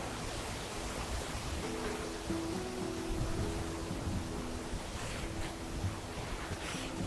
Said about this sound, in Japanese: それにしても風強いっすね